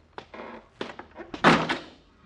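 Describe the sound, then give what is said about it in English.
A door with a faulty, unrepaired latch slams shut in a basement with a heavy thud. Several smaller knocks and clicks come before it. “McGee, the door, the latch. You didn't fix it. We're locked in here.”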